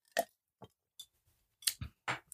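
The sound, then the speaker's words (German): A person taking a sip of a drink: a few quiet, soft mouth sounds in an irregular run, short slurping and swallowing noises with brief silences between them. “Oh Gott, ey, ich trinke mal noch einen Schluck.”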